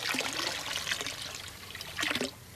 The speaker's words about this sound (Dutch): Nog even die lekkere plons.